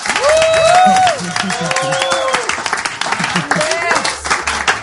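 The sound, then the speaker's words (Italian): Theatre audience applauding in the hall, steady dense clapping that runs throughout, with raised voices and a few cheers over the top, loudest near the start. “a voi che siete in sala chiedo un applauso per il nostro tecnico Zacca, perché ha fatto un miracolo.”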